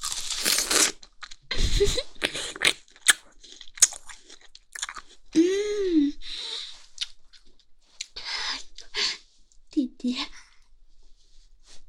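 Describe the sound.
Crunchy biting and chewing of chicken leg meat, with many close, crisp bursts of crunching and wet mastication separated by short pauses, and occasional soft vocal sounds in between.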